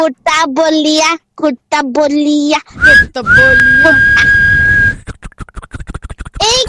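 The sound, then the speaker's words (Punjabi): A person whistles to imitate a train whistle, holding one long, steady, high note after a stretch of lively voices. A run of quick clicks follows. “ਤੁਸੀਂ alarm ਵਜਾ ਤਾ ਮੈਂ ਆਪਣੇ ਵੱਲੋਂ train ਦੀ ਸੀਟੀ ਮਾਰਦਾ ਪਿਆ”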